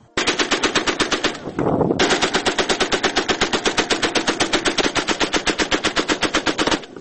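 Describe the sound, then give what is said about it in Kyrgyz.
Machine-gun fire as a war sound effect for a 1918 assault on an insurgent position in Bishkek: many loud, evenly spaced shots in a fast, steady rhythm that runs almost without a break. “1918 жылдын 27 декабрында Бишкектеги Дунган конуш жайын ээлеп жаткан козголоңчуларды көздөй артиллерия снарядтарды жаадырып, артынан пулемёттор сайрайт да кызыл аскерлер чабуулга өтөт.”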